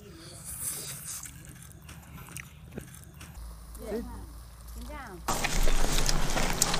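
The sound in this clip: Biting into crisp tea-leaf pastry: soft crackly bites with faint voice sounds, then a loud, dense burst of crunching chewing over the last second and a half.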